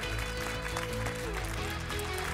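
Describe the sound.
Applause for a trophy winner at a game event in Šiauliai. The clapping is dense and continuous throughout and stays at an even loudness.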